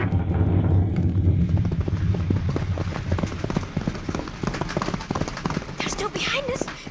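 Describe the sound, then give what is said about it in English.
Hooves of a horse-drawn carriage galloping away, a rapid, steady clatter of many hoofbeats throughout, with shouting voices loud at the start. “Stop! Stop that carriage!”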